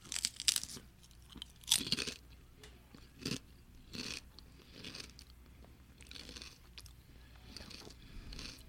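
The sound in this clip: A Herr's charcuterie board flavored kettle-cooked potato chip is bitten and chewed. A few sharp, crisp crunches give way to softer, irregular chewing, all fairly faint.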